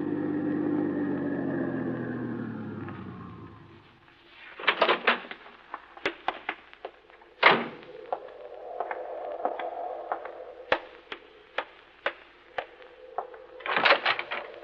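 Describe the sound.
A car engine drones and then winds down to a stop as it pulls up to a rustic lodge on a mountaintop, followed by many sharp clicks and thumps.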